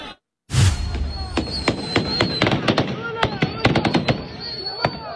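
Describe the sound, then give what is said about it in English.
Police in Pakistan fire warning shots at protesters: many sharp, irregular cracks in quick bursts, some close together, over loud, constant crowd noise. “Police in Pakistan firing warning shots at protesters”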